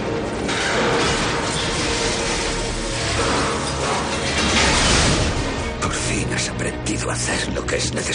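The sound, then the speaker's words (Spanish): An elevated railway track structure collapses with a dense, continuous roar of crashing and grinding, mixed with mechanical clanking and rattling, loud throughout. “Finalmente la estructura se viene abajo.”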